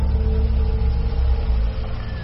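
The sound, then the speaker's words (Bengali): A low, steady engine rumble from vehicles, a white sedan and a police jeep, driving in through an estate's main gate, continuous and fairly loud for the whole moment with no voices. “এস্টেটের main gate দিয়ে দুটো গাড়ি ঢুকে পড়ল, একটা সেই সাদা স্যাডেন, তার থেকে নামলেন ডক্টর প্রবীর মল্লিক”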